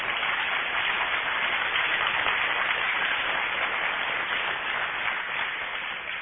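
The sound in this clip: Audience applause for a young competitor being congratulated, dense, even clapping that stays strong throughout and eases slightly at the very end.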